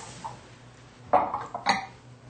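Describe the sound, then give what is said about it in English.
A serving dish for an antipasto is set out with a couple of faint ceramic clatters and clinks, the rest quiet. “So today we're going to start with an antipasto. And let's get our dish.”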